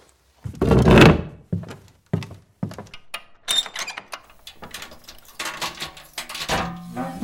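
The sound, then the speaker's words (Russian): A safe being opened: a heavy metallic thunk, then a few sharper clanks, knocks and a light jangle at irregular intervals, fairly loud and close with no voices. “Сейф открой.”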